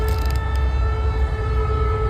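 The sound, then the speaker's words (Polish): Air-raid sirens sounding over a city in eastern Poland during an alert of possible airborne threat: a loud, sustained tone holds steady throughout over a low rumble, with no voices. “Tuż przed południem zawyły tam syreny.”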